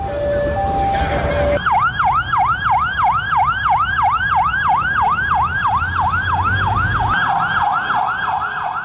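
Loud, rapid wailing emergency siren after an attack in Beirut, with fast repeated up-and-down sweeps that start after a short opening sound and carry on steadily.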